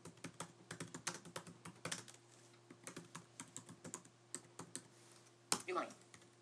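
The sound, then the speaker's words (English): Typing a command on a computer keyboard: many quick, irregular keystrokes tapping steadily, with a louder burst of key clatter near the end. “I'm going to type that in right now.”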